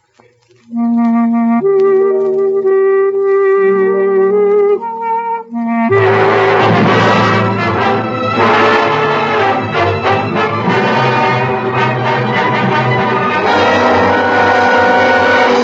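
Orchestral music opens with sustained, layered tones over a low line, then a full loud ensemble enters around six seconds with dense strings and brass, continuing steadily to the end.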